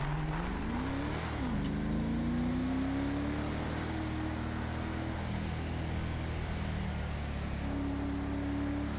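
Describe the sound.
A car engine drones during an insane drift in a driving video game's freeroam mode. It sounds quiet and continuous, with brief pitch sweeps near the start and then a long, slowly rising whine.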